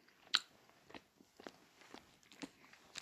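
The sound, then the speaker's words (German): Biting into a caramel-filled sweet: one crisp bite, followed by a few faint, soft chewing and crunching sounds, with no talk. “Und wir beißen mal rein. ist alles Karamell.”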